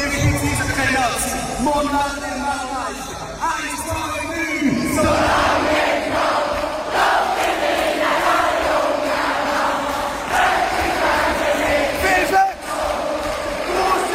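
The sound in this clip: A crowd of about 15,000 concert fans in a Zurich arena chants and shouts a greeting for the Swiss hockey team. Massed voices roar loudly and continuously, with a few swells throughout.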